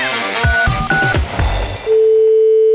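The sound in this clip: Telephone ringing tone of an outgoing call to a plumbing and heating business: a steady, single-pitched electronic tone sounds in the final second, following a dense burst of other sound.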